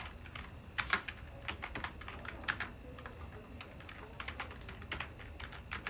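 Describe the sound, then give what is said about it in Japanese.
Typing on an unfamiliar deep-travel computer keyboard: many quick, irregular key clacks in a soft, uneven stream, with no voices. “もう押しづらい このいつものキーボードじゃないからね、 あこの深いやつ苦手なんだよね”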